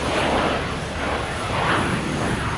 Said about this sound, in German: Da startet ein Flugzeug. Mann, wie schnell das über die Straße rast. Und jetzt fliegt es hoch in den Himmel.